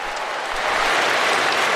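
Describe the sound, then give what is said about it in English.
Crowd applause at a sports ground just before a game, given as a tribute; dense, steady clapping that swells slightly midway and carries on alone without talk. “And a warm round of applause in tribute to the late Neil Danaher.”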